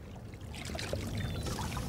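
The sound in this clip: Water poured for a sea lion, a soft, continuous splashing trickle, faint and fairly even, with no voices.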